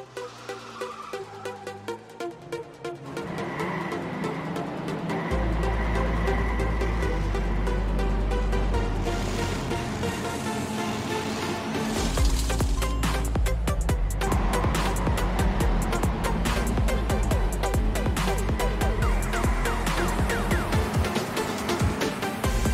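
Racing cars roar in Circuit Superstars, a top-down, Micro Machines-style racing game in early access on Steam. Loud, sustained engine drone builds after a few seconds and keeps going, with a busier, rattling stretch in the second half.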